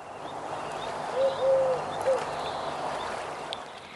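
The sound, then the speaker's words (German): An eagle owl hooting in the distance: a few faint, low, tonal hoots in quick succession that barely rise above a steady background hiss. “in der Ferne hörst du ein Uhu.”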